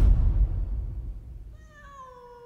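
A cat held in a man's arms in a banana garden gives one drawn-out, steady meow after a low rumble fades away, with no talk.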